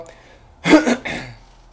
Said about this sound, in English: I was a little sick yesterday, so that's why I'm coughing and my voice is a little raspy.